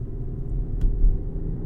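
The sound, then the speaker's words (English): Steady low rumble of car interior road noise while driving on a road trip just past the Colorado line into Wyoming, a continuous dense drone with a couple of slight bumps partway through and no voices. “we just crossed the Colorado state line into Wyoming. Here's that part of the conversation. So we're driving right now”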